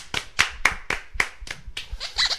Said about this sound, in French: D'accord, et ben un tonnerre d'applaudissements aussi, hein.